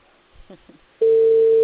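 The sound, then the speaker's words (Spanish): A telephone tone sounds while a call is being placed: after a brief faint voice, a single steady, mid-pitched tone comes in abruptly and holds loud and unbroken to the end. “Estoy llamando ya.”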